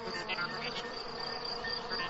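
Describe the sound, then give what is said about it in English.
Crickets chirp in a dense, steady high-pitched trill, a continuous buzzing shimmer with no clear pauses, fairly faint and unbroken throughout, with no voices. “You can tell the temperature by how many times a cricket chirps in a minute.”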